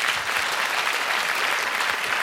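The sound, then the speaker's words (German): Applause from an audience honouring a long-established family toy shop, dense, steady clapping that fills the whole short clip at an even level. “Ich finde das ein Applaus wert, oder?”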